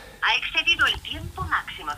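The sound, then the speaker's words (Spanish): A telephone rings with warbling electronic tones in short, melodic bursts that come and go in an uneven rhythm. “¿Y esto qué es? Pues yo creo que es ese teléfono, ¿no? La tecnología nos está volviendo locos a todos.”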